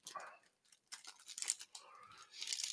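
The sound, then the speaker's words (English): Faint crinkling and tearing rustles as the wrapper is peeled off Finnish salty licorice. The sound comes in a few soft, papery bursts separated by short pauses. “Do I peel it off? I think you peel it down like a Twizzler.”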